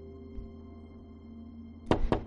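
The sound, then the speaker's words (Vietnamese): Knocking on a door: a quick burst of three sharp knocks near the end, after a near-silent stretch with a faint steady hum. “Bỗng dưng bên ngoài vang lên tiếng gõ cửa.”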